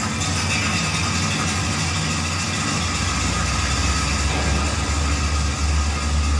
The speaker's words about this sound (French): Vous savez, quand on prend la cage, nous on dit cage, on dit pas ascenseur, hein. Quand on descend, la vitesse elle est impressionnante.